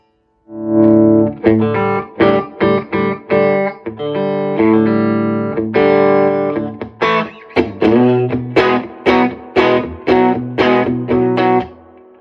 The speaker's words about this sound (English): You can set the attenuation lower. So if you want to get a drive sound at a lower volume, in fact, let's do that.